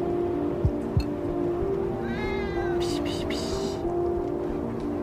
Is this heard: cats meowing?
yes